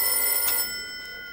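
Telephone bell ringing in one bright, shrill burst that stops abruptly and leaves a fading ring.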